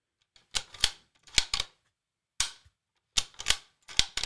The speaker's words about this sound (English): this is in a 25-06, this is a bolt action, right? This is what most people are going to be hunting with, right? So the rate of fire, it would be something like this.